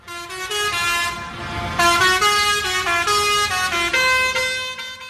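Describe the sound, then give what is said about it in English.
Loud tractor horns from farmers protesting in Brussels toot continuously, with many overlapping blasts stepping between different pitches in a dense, unbroken chorus. “That's the sound of farmers tooting their tractors in protest in Brussels”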